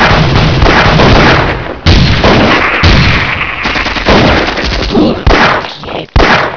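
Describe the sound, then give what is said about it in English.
Heavy gunfire erupts as a loud, dense barrage of rapid overlapping shots. It continues almost without pause for several seconds, with sharp booming cracks throughout. “Open fire!”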